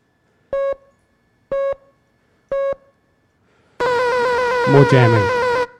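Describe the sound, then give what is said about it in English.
Radio tuned to an unjammed North Korean regime signal: three evenly spaced short beeps, then a loud, sustained, harmonic-rich tone with wavering sweeping overtones. “Now, here's a signal which is a North Korean regime signal, so it's not jammed.”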